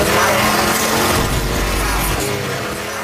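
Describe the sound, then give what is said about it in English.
A Hellcat car engine roars loudly with a dense, continuous growl and broad rushing noise. A deeper low rumble swells through the middle before the sound tapers slightly. “It is a Hellcat. And they have finally gotten this guy, I guess, for a noise violation.”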